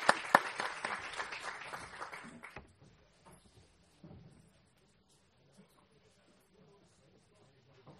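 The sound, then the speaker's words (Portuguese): Audience applause follows the close of a conference panel. A burst of clapping lasts about two and a half seconds, then stops sharply, leaving near-silence with a few faint noises. “Meus senhores, foi um fabuloso painel. Uma grande salva de palmas para o nosso senhor.”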